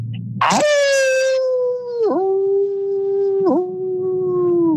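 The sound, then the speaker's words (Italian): A human voice imitates a wolf-like howl: a long, sustained tonal wail begins abruptly, holds steady with two brief dips in pitch, and sinks slightly toward the end. “E adesso sentite il vostro bello allulato.”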